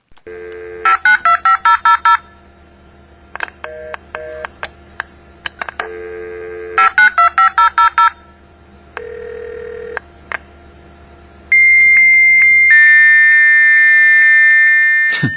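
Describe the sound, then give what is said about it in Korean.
A dial-up modem connects to a pre-1994 telephone-network PC online service. Loud bursts of touch-tone dialing and beeps give way to steady tones, then a harsh, high, screeching handshake, with no voices. “예, 이렇게 하면서 PC통신에 연결되죠.”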